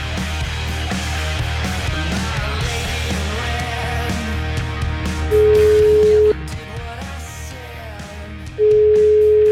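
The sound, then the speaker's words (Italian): A telephone call to a home in Rome rings out as two long, steady ringback tones of about a second each, separated by a pause, over busy background sound. “Chiamiamo, credo che sia a casa sua a Roma”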